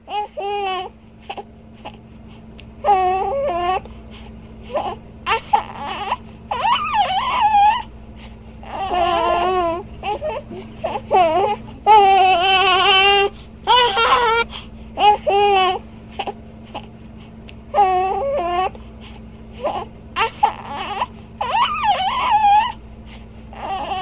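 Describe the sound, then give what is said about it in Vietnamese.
A young boy crying and sobbing in a police chief's warm office: repeated loud, high, wavering wails in bursts separated by short pauses, some breaking into sobs and whimpers. “Thằng bé vẫn cứ la hét, người ta tưởng nó rét. Nhưng khi vào phòng giấy ông cảnh sát trưởng ấm nóng, đứa bé vẫn kêu khóc.”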